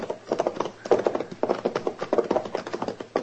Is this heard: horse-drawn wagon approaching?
yes